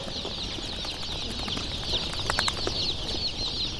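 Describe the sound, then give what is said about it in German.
Small yellow chicks, hatched five days earlier, peep constantly as they wait for transport. Their high chirps overlap in a busy chorus over a low background hum. “Hinter den Schuhkartons warten etwa genauso viele kleine gelbe Küken, die alle vor fünf Tagen geschlüpft sind, auf ihren Weitertransport.”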